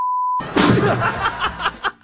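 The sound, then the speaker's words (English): A censor bleep covering a profanity: one steady, mid-pitched electronic tone lasting under half a second that stops sharply, followed by voices talking with a bit of chuckling. “But the last beep was MF.”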